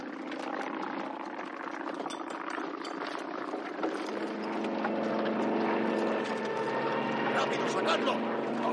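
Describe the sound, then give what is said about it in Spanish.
Airplane engine drone from a 1970 war film as the plane returns over the area to attack. A steady, rough, propeller-like hum runs throughout, growing slightly louder and busier in the second half. “De nuevo, el avión regresa a la zona y vuelve a cargar contra ellos.”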